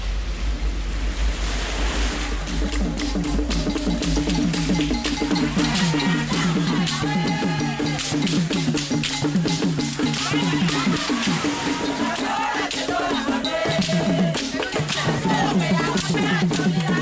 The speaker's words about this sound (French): On est sur une plage de Ouidah. Ouidah marquée par l'esclavage. Ouidah, terre du vaudou aussi